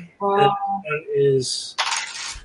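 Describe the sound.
Dice rolled twice for a damage roll in a tabletop role-playing game. A brief voice comes first, then a short, bright clattering rattle as the dice land.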